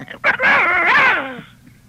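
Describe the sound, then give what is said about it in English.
A voice imitates a little dog, giving a high, whiny, nasal vocal sound with a wavering pitch that sags at the end, lasting over a second. “This is like a little dog would say, I'm a little dog, and this is the voice I would give to him.”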